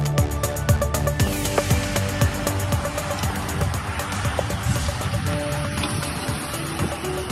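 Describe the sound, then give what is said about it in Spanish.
Racing bicycles pass along the Cerro de los Molinos in Alcázar de San Juan, with a steady whirring roar that holds loud throughout, tinged with the motor drone of accompanying motorbikes. “Eso que suena ahí un poco de fondo es el pasar de las bicicletas de carreras en su paso por el Cerro de los Molinos de Alcázar de San Juan.”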